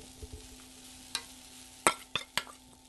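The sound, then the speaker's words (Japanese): Okonomiyaki sizzles on an iron griddle, a soft steady hiss broken by a few sharp pops and clatters. “あら、ちょっとジューっていい音がしてますね。”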